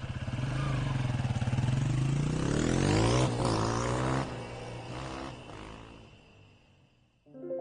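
A motorcycle engine as the rider pulls away, carrying a gas cylinder: a loud, steady drone that climbs in pitch as it revs, holds, then gradually fades, with a brief new burst of sound at the very end.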